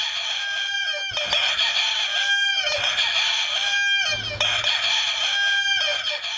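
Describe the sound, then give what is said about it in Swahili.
Roosters crow again and again at a contest for the most consecutive crows, held in a village in Hubei, China. Many loud, drawn-out crows follow one another, with low background noise between them. “kumefanyika mashindano ya kuku anayeweza kuwika mara nyingi zaidi mfululizo kuliko wengine wote”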